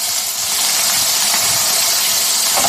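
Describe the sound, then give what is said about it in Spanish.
Steady sizzling hiss of onion and garlic gently frying together over medium heat, an even, unbroken crackle with no voices. “primero de todo, comenzamos pochando al fuego la cebolla de manera suave con el ajo.”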